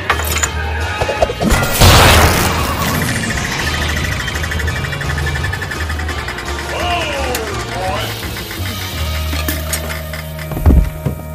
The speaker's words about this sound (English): God damn it, give me that fire axe! Switch or no, I'll fix it.